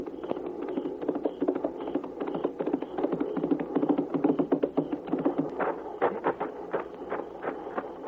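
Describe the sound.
Hoofbeats of a horse carrying a rider approaching at night near a battle camp: a long, steady run of many quick clip-clop strikes, moderately loud throughout against a low rumbling background.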